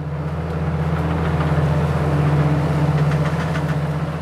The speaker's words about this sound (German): Die Vendange, die Weinlese, ist in vollem Gang. In den Reben einer Weinkellerei oberhalb von Gland wird maschinell geerntet.